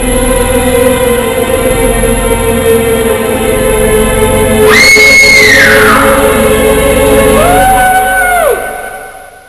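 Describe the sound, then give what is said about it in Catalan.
A young woman screams, two long high cries, the first louder and bending downward, the second shorter, over a steady continuous background. “L'Àlex va anar a comprar-me menjar, però quan va baixar va veure una noia jove que estava cridant”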